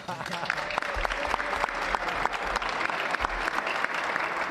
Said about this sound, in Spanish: Eso también merece un aplauso